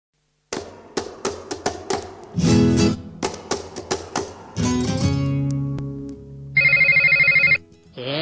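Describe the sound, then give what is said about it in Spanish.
A telephone rings with a single loud, buzzing electronic burst lasting about a second, after a run of sharp taps and knocks with a few longer thuds between them. “Te está sonando el teléfono y no te diste cuenta.”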